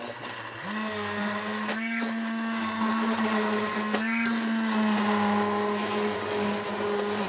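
An immersion blender pureeing cooked sugar snap pea soup: a steady, mid-pitched motor whir that starts after a moment and runs continuously, with a couple of brief surges as the blade works through the soup.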